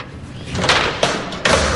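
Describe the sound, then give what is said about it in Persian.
A door is opened, with a rising rush of movement and then three distinct knocks or thumps spaced evenly apart, all fairly loud against a steady background rumble. “باز کن اون درو.”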